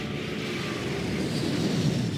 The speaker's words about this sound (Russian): Но ее слова заглушил рев взлетающего самолета.